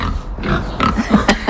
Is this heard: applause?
no